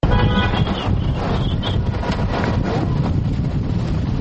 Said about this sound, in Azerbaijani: Bugün küçəyə çıxanlar şəhərdə uçan zirzibillər, göy sorulan qum axını ilə üz-üzə qalmışdılar. Bakının güclü küləkli havasına toz dumanın da qarışması adamları lap şaşbaş salmışdı.